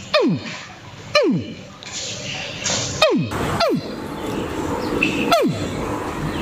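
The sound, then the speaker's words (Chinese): A man imitates a baby crocodile calling for its mother, giving five short, sharply falling chirps spaced a second or two apart over a noisy outdoor background. “鳄鱼小鳄鱼的时候是这样叫的。 鳄鱼找妈妈的声音。”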